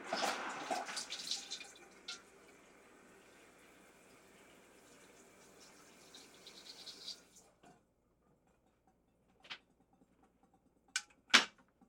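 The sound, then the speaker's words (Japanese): Tap water gushes into a cooking pot that will be used for boiling konjac, a steady rushing pour for about seven seconds. Then it cuts off, leaving near silence broken by a few sharp knocks. “続けて鍋に水を入れてからこんにゃくをしばらく茹で”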